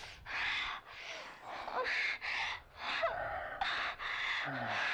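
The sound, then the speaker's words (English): A woman's exaggerated, fake-sounding moaning and panting during sex: a rapid string of breathy gasps and pants, loud and evenly repeated, with short pauses between bursts and no speech. “Her moaning is bothering me. I'm not feeling it. It's more of a pant, isn't it? Like, it feels very fake.”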